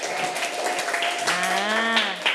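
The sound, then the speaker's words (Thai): A class claps for a group that correctly answered a quiz question on the digestive system. The clapping is steady, and a drawn-out voice rises over it partway through. “ถูกต้องค่ะปรบมือให้กลุ่มที่3หน่อย”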